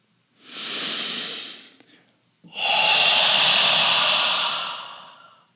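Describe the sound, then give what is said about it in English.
Two forceful out-breaths pushed through an open mouth with a relaxed jaw, breathy rushing hisses; the first is shorter, the second is longer and stronger before it tapers away. “But now we're going to send the air to the far side of the room through that open mouth and relaxed jaw. It'll sound something like this.”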